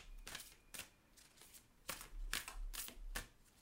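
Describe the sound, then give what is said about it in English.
Soft papery swishes as a card is drawn from a Super Attractor oracle deck, several brief slides and shuffles, faint, with short pauses between them. “Let me draw a card for podcast listeners.”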